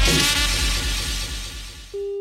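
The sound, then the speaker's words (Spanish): A mobile phone is dropped and its screen breaks: a loud, harsh crash that fades away over about two seconds, then a steady electronic tone begins. “Aquí este celular se me cayó y jodió la pantalla.”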